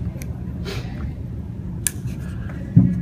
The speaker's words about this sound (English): I brought my trusty Dremel. And I will use a heavy cutting tool. So I'll put that on.